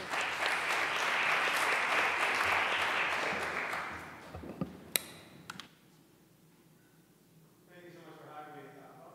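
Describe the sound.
Audience applause welcoming a guest speaker at a church service, a thick, steady clapping that fades out after the first half, leaving a few isolated claps and quiet before a man's voice begins near the end.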